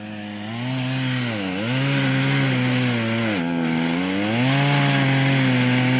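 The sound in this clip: Chainsaw cutting a notch in a tree, a loud, steady buzzing engine drone that dips briefly in pitch twice as the chain bites into the wood, then recovers.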